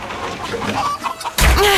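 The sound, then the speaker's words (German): Hens clucking and squawking in a coop, startled by a door slamming shut: restless clucks give way to a sudden loud bang late on, followed by louder, agitated squawking. “Das Knallen der Tür hat die Hühner aufgescheucht.”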